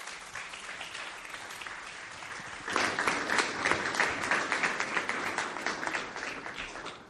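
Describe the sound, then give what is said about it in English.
An audience applauds to welcome a speaker. Steady clapping swells noticeably louder partway through and continues strongly for several seconds without voices. “Why don't you go ahead and welcome him with your hands.”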